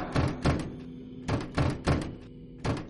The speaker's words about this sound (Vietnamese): nhào tới tông vào cửa, sau đó đạp, cào, giật liên hồi